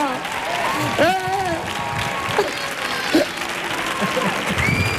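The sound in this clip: Audience applause in a standing ovation at Auditorio Cartuja: dense, steady clapping fills the whole clip beneath a man talking excitedly.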